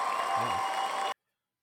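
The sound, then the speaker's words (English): A studio audience applauding, a dense, even wash of clapping that carries for about a second and then cuts off abruptly into silence. “That's our studio audience right there.”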